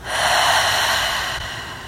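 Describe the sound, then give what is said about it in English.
A deep breath during a guided meditation, one long, airy rush of air that swells quickly and then eases off slightly, heard alone without talk. “Take a deep breath inward and out.”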